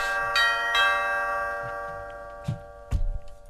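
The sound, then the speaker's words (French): An old doorbell rings with two bell strikes whose sustained tone lingers and slowly fades, followed later by a couple of low thumps. “Sonnerie là, cette vieille sonnette là.”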